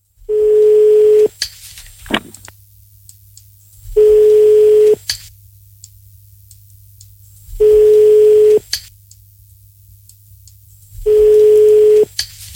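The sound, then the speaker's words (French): Ringback tones on a telephone line while a number is redialed: four steady mid-pitched beeps, each about a second long, evenly spaced by long silent gaps, over a faint constant low hum. “On recompose le numéro de téléphone.”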